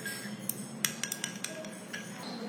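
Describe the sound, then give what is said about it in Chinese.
A utensil clinks against a pot while stirring melting candle wax, producing a series of light, irregular metallic taps that stay faint and unhurried over a quiet background. “它会融，你慢慢搅拌它就融。”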